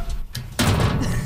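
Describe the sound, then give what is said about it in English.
Locker doors being opened, soft handling noise followed by a sudden clunk and rattle that carries on to the end. “So that's us all opening our locker.”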